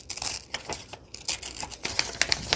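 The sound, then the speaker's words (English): Paper ripping as a word is torn out of a printed page, a rough, crackling tear that comes in several uneven bursts and turns sharper and brighter toward the end. “So I think I'm just going to tear out botanical composition and use that.”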